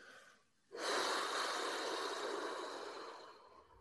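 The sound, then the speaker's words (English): A long exhale pushed out from the chest during a tense-and-release relaxation exercise: one steady, breathy rush of air that starts abruptly and holds for about three seconds before easing off, with no voices. “Breathe it out when it releases.”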